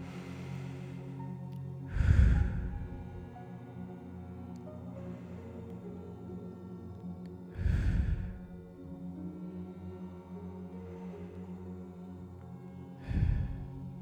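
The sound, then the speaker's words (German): Deep breaths in through the nose and out through the mouth during a guided relaxation: three fuller, noisy inhalations spaced several seconds apart, with softer exhalations between them, over a steady soft tonal background. “Und dann zum Abschluss nehmen wir noch gemeinsam ein paar tiefe Atemzüge durch die Nase ein und durch den Mund wieder aus.”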